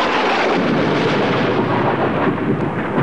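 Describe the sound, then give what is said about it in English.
Thunder in a fiery tempest: a continuous, heavy rumbling roar that stays loud and dense throughout without a break. “I have seen the ambitious ocean swell and rage and foam to be exalted with the threatening clouds. But never till tonight, never till now did I go through a tempest dropping fire.”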